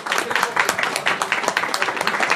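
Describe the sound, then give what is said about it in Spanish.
An audience applauds a guest at a live stage show, a dense, steady burst of many hands clapping at once, loud and continuous throughout. “Un fuerte aplauso para el Rey David.”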